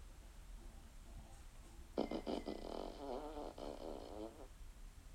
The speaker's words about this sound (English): Like Echo, open fart.